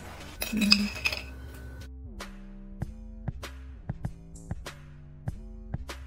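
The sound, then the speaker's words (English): A utensil clinks faintly against a container while sugar is mixed with mustard and apple cider vinegar, giving several soft, irregular taps over a low steady hum. “Mix up the sugar first.”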